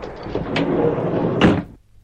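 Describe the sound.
A train compartment's sliding door on wheels rolls open with a continuous rumbling glide that builds to a brief knock near the end. Quiet follows.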